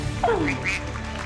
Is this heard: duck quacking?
yes